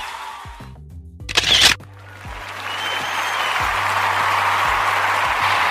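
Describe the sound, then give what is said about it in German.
A camera shutter fires once as a photo is taken: a single short, sharp burst, followed by a steady hissing wash of background noise with no voices. “Du musst dich inszenieren, schieß uns ein Foto.”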